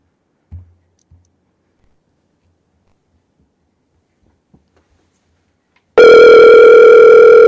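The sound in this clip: Telephone ringback tone on an outgoing call: a few faint clicks, then a loud, steady buzzing tone that starts abruptly and continues to the end.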